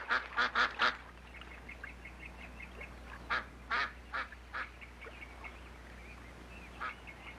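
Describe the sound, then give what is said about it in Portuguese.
Ducks quack in many short, nasal bursts, several coming in quick runs and others spaced apart, moderately loud over a steady low background hum with no talking. “os patos estão aqui.”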